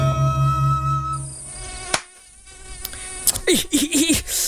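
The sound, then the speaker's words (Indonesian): A mosquito's high, whining buzz drones steadily with a thin, layered tone, briefly thinning out midway before a few sharp clicks and squeaky bursts join near the end. “Nyamuk ngedengung mulu dari tadi, kagak capek apa ya?”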